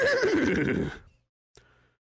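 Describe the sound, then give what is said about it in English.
A horse whinnies once, loud and shrill for about a second before fading out, followed by a brief faint sound and then silence. “It's a semi-truck with a horse, and she just trots in there”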